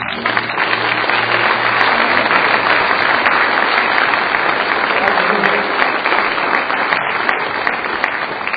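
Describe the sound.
Sustained audience applause welcomes a speaker to the stage: thick, even clapping that fills the whole stretch without a break.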